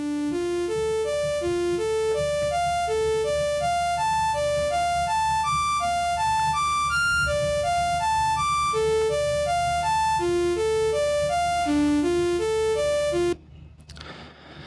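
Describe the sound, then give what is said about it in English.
Slowed-down arpeggios from a synthesizer: bright, stepped electronic notes climb and fall in a steady repeating pattern over a low sustained bed, holding an even loudness until they cut off abruptly just before the end. “a synth, and we're going to play some arpeggios on it. I'm going to slow it down so that you can hear what it actually sounds like as an individual synth.”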